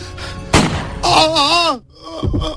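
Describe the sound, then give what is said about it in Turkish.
A single gunshot is fired at a man holding a telephone receiver, one sharp bang early on, followed by a voice crying out and further short vocal sounds. “Ateş ettim, ateş ettim.”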